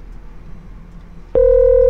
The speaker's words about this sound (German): Jetzt ruft er wieder an.